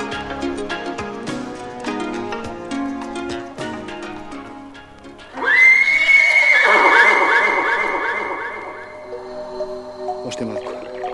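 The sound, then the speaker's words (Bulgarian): A white horse lets out a long, loud whinny with a wavering trill. A stretch of melodic music plays before it and continues underneath. “Още малко конче, още малко, мое бяло самовилско конче.”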